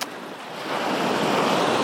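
Waves washing onto a beach: a steady, broad rush of surf with no voices, swelling a little louder partway through and holding there.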